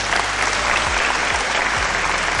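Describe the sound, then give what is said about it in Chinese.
Audience applause greets a guest walking on stage at an AI industry event, a dense, steady wash of clapping that holds level throughout, with low tonal sweeps repeating underneath. “来，掌声邀请他上场。”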